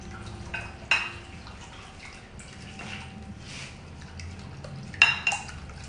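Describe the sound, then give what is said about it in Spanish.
Utensil clinking against a bowl as eggs are beaten in a kitchen: a few sharp, bright clinks separated by soft scraping and quiet stretches, with no talking. “Entonces los huevitos se revuelven bien así.”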